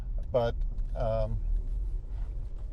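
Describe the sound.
A car driving down the road gives a steady low engine and road rumble, with a voice speaking briefly over it.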